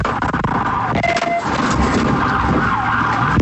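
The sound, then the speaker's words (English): Siren wailing during a police vehicle pursuit in Fernandina Beach. A loud, wavering tone rises and falls over a steady rush of engine and road noise throughout. “Sound from a vehicle pursuit in Fernandina Beach.”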